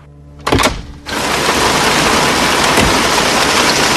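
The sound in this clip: Pouring rain makes a dense, steady, loud hiss that sets in after a short, sharp burst of noise near the start and then carries on unbroken.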